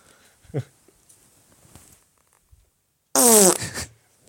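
A recorded fart played back on a phone: one faint short blip early on, a stretch of near silence, then a loud, buzzy, sputtering fart lasting under a second with a wavering pitch.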